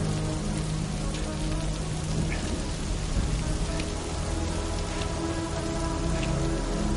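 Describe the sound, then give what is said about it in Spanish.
Radioactive rain pouring in a science fiction film scene: a dense, steady patter of raindrops with a constant hiss that stays even throughout, with no voices. “Cuatro camina bajo la lluvia radioactiva.”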